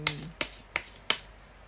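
Cards handled while being drawn from a deck: four crisp, evenly spaced snapping clicks, each fading quickly.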